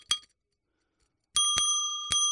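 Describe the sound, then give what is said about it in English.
A bicycle bell gives one short bright ding, then after a pause several quick metallic rings that blend into a sustained shimmering tone, loud and alone. “By the way, that's your bell that you have now.”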